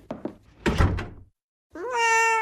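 A cat in a video game gives one clear, rising, tonal meow after a few heavy thumps like a door knocking shut.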